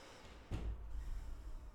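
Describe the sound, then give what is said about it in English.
A single breath drawn in and out through the left nostril while the right one is held closed by a thumb. A soft, sudden nasal rush begins halfway through, then carries on as a quiet, steady airy hiss. “close that right nostril with your thumb and then breathe in and out through your left nostril.”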